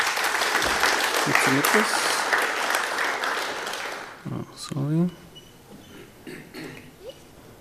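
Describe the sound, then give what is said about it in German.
Audience applause greets a speaker introduced to present IndieWeb at a German-language talk, a dense, loud wash of clapping for about four seconds before it thins out and a voice speaks over the fading claps. “Schon mal einen Applaus dafür, bitte.”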